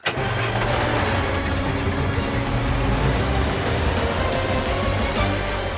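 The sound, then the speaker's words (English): A cartoon car named Carl starts its engine with a sudden burst, then runs loudly and steadily as it drives off through the streets. “Carl drives through the streets.”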